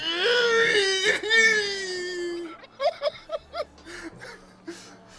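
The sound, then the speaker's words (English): A person vocally imitating sobbing: a long wavering wail, then a run of short, choppy sob bursts and a few whimpering catches, moderately loud and alone. “Just starts sobbing.”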